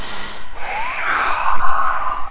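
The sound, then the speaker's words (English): During a yoga class, an audible breath is drawn in and let out: a soft, airy, slightly wheezy rush that swells through the middle and trails off, with no talking. “Breath in, breath out”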